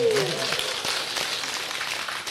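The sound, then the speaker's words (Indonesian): An audience applauds the regent of Bojonegoro at a public event, a continuous patter of many hands clapping at a moderate, fairly even level throughout. “Jadi untuk pendidikan menjadi perhatian penting Pak Bupati. Kita berikan aplaus beliau.”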